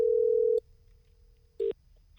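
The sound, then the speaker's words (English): Telephone dial tone on an outgoing call: a loud, steady tone for about half a second drops to a faint continuing hum, then one short tone burst sounds near the end. “Dan, can you dial through to McRoberts?”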